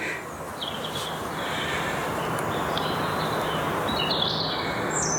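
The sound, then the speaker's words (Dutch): Birds waking at dawn in a forest near Bilthoven, about an hour before sunrise, with sparse faint high chirps and calls over a steady, dense hiss. “Zo horen we de komende uren het ontwaken der vogels in moeras, op de hei, op een eiland en in de duinen. Om het ontwaken van de vogels in het bos mee te maken is verslaggever Henny Radstaak deze ochtend in de bossen bij Bilthoven.”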